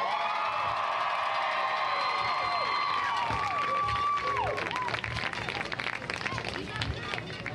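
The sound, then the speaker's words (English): Crowd applause at a middle school game: loud, sustained clapping with cheering that keeps going to the end. “With our Middle School, great game, big round of applause.”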